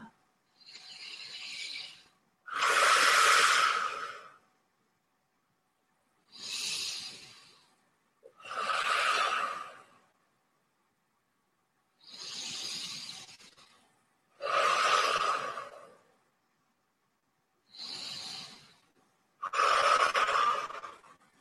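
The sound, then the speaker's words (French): Slow, deliberate breathing in and out during a yoga meditation. Eight airy breaths are separated by silences, alternating softer and louder, with a steady unhurried pace. “Et d'ici, vous aspirez lentement dans votre rythme. Vous inspirez et vous expirez par le troisième chakra.”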